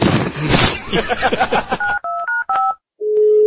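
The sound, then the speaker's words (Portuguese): Telephone keypad tones as a number is dialed to place a call: about four short, steady two-note beeps in quick succession, then a longer, low, even tone after a brief gap. “A gente vai soltar ligações. Liga então.”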